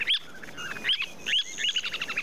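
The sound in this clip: A semipalmated plover calls in a series of sharp, high chirps spaced apart, then ends with a quick run of rapid repeated notes, with no voices.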